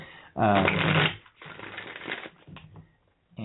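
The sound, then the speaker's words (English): Playing cards are shuffled and pulled: a loud riffling burst gives way to softer rustling and sliding, with short pauses and a final quick riffle at the end. “And then I'm going to go ahead and pull cards for each of the areas that you've said.”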